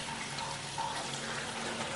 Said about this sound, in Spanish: Ella se lava las manos.